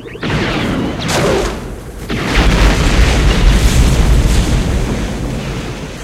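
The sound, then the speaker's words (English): A laser bolt strikes a probe droid from behind and explodes it. A loud, booming blast with a rushing swell grows into a long, heavy, sustained roar of rumbling noise. “another laser bolt explodes it from the rear”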